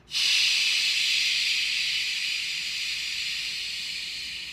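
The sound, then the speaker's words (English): A loud exhale through the mouth during a guided breathing exercise, heard as a steady, airy hiss that starts abruptly and tapers off slowly over about four seconds, with no talking. “Hold it for the count of three. One, two, three, exhale through the mouth loudly.”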